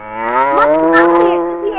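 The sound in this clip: A water buffalo moos once: a single loud, low, harmonic call held for nearly two seconds.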